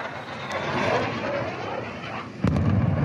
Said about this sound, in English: That is the sound of an explosion in the southern city of Tyre.